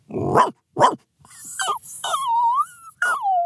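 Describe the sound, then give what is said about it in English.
A man imitates a dog with his voice: two short, harsh bark-like bursts, then a few whining, whimpering cries that slide downward in pitch. “has some pretty awesome dog impressions in his toolkit.”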